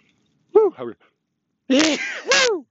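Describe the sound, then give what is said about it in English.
A person sneezes while out walking the dog: a short voiced lead-in, then a loud, drawn-out voiced intake that ends in a sharp, noisy burst. “sneezing there, unedited and uncut”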